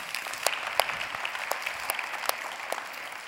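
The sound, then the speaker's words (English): Light applause from a church audience welcoming guests at a morning service: sparse, scattered claps with a few sharper individual hand strikes standing out over a soft background. “If you're a regular here at the Bridge, can we just put our hands together and welcome all of our guests this morning.”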